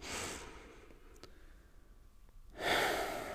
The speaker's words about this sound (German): Als erstes nehmen wir wie so oft zwei, drei tiefe Atemzüge gemeinsam.